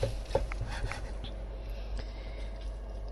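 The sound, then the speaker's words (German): Slicing with a sharp knife, cutting food into medium-thick slices: a few quiet, crisp cuts come close together at the start, then the sound fades to soft background hush. “das Ganze in schöne gefällige Scheiben schneiden. Die sollten nicht so dick sein, sollten aber auch nicht so dünn sein”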